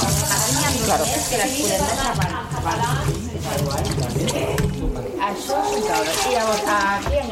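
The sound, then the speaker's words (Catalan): Water runs steadily in a kitchen where people are cooking, a continuous rushing hiss that never pauses, with people talking over it. “Aquest so és el so de la cuina, no? És el so de, no sé, podríem dir que potser era una família cuinant,”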